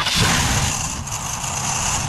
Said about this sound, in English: Well, that sounds expensive. Nope, that's the sound of your car begging for retirement.